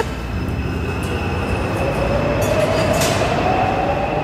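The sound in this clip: A metro train in an underground station gives a steady, dense rumble, with a faint thin wheel squeal slowly rising in pitch over the noise.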